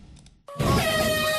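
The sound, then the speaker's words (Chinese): A ship horn sounds to start a national sailing championship regatta on the coast at Beidaihe New Area, Qinhuangdao: one loud, steady tonal blast that begins abruptly after a brief quiet moment and holds to the end. “随着启航汽笛的鸣响”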